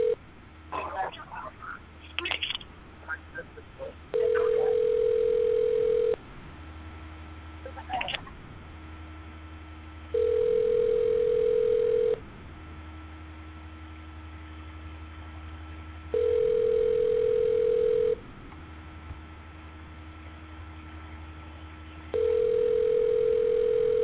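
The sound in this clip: Telephone line tone over a narrow, phone-quality line: four long, steady beeps of about two seconds each, evenly spaced, with a low hum between them and scattered clicks at the start.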